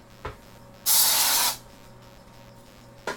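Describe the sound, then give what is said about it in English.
A single loud burst of aerosol spray hisses bright and steady for under a second. Faint clicks sound before and after it, and no one speaks. “Sorry, I had to spray that.”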